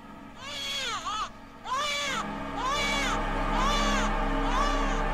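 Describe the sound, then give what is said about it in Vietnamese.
Eerie, shrill crying like a hurt child's rises in five wavering wails, each arching up and down in pitch, with short gaps between them over a low background murmur. “nó khóc lên choe choe đến rợn cả người.”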